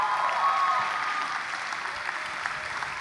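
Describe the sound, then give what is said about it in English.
Congregation applause for a speaker coming to the church pulpit, a full burst of clapping that eases slightly after a second and continues steadily. “Now, this morning, I'm welcoming to the pulpit Andrea Ramirez. Y'all give it up for her as she comes.”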